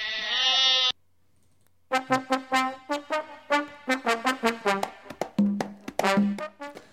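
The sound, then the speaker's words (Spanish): Zaraibi goats bleat: one long, wavering call, then a brief silence, then a fast run of many short, nasal bleats that overlap and continue to the end. “Pobrecillo, las cabras Zaraibi ahí controlándoles el parto y la preñez.”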